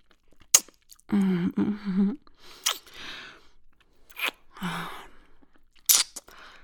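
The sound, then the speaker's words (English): Wet, smacking kisses land in a few sharp, close bursts, separated by short pauses, with a brief soft murmured vocal sound among them. “You taste good. I want to give you more kisses.”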